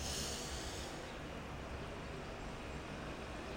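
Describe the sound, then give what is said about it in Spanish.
A long, deep inhale through the nose during a guided breathing exercise, heard as a soft, steady, airy hiss that lasts the whole clip with no other sound. “Te invito a que en este momento inhales profundamente conmigo.”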